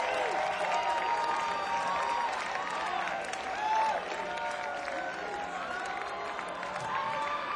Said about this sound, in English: Make some noise real quick for the Particle crew and the Traveler crew, for that matter, for keeping this whole thing spinning.